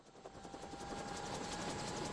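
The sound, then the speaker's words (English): A government helicopter takes off from a patch of dead grass by a border, its rotor and engine a dense, steady roar with fast rhythmic thumping that grows slightly louder throughout. “A government helicopter rises from a patch of dead grass along the Serbian border.”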